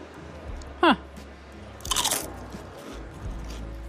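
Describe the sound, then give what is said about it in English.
Crunching of a steak-flavoured potato chip: a short cluster of sharp, crisp bites lands around the middle of an otherwise quiet stretch. “Yeah, this potato chip tastes like steak.”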